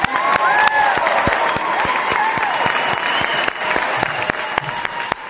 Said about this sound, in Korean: 고모가 항상 응원한다고 격려의 박수, 응원의 박수 보내주세요.